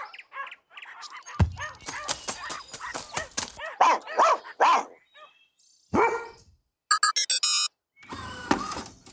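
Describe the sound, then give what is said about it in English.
Several dogs barking: many sharp, loud barks and higher yips come in irregular bursts and clusters, separated by short silent gaps. “Look at all of these dogs.”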